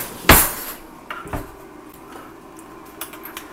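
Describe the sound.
A serving spoon clinks against a dish as green bean casserole is spooned out at home before the main course. A few sharp clatters come first, the opening one loudest, then softer scraping taps, with no voices.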